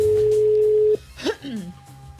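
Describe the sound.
Ringback tone on a call to a Movistar mobile phone: one steady, mid-pitched tone holds for about a second, then stops as voices begin talking.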